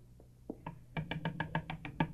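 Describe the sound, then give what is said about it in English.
Knocking on a door: a few soft, hesitant taps lead into a steady run of quick, evenly spaced knocks. All are fairly faint and sharp. “I better go up and knock on the door.”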